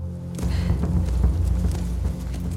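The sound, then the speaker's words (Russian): Horse hooves thud as two figures lead a horse by the reins with a queen riding on it. A steady run of dull, low clopping beats sits over a deep continuous rumble. “Где-то далеко две тени ведут в поводу лошадь, на которой сидит царица.”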